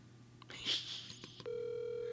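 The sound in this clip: A phone call on speakerphone gives a few faint beeps and clicks, then settles into a steady electronic ringing tone, all fairly quiet.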